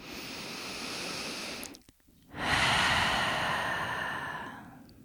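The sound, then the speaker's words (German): Slow, soft breathing during a relaxation exercise, in through the nose and out through the open mouth: two long, airy breaths separated by a short pause, the second one stronger. “Lass die Schultern sinken, atme ein durch die Nase, aus, durch den geöffneten Mund.”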